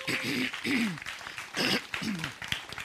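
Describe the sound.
Audience applause at a church welcoming a new staff member, an uneven wash of clapping with voices rising and falling over it.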